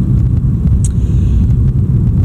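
A car driving home on the road gives a steady, loud, low rumble of engine and road noise that runs continuously, with no talk.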